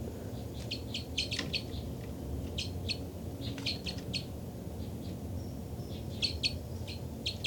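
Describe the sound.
Birds calling back and forth in response to each other: repeated bursts of high, bright chirps come in several clusters over a steady low background rumble.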